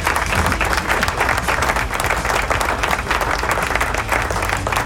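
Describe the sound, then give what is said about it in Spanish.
Crowd applause: dense, loud, continuous clapping with no break and no talk. “Así que aplauso.”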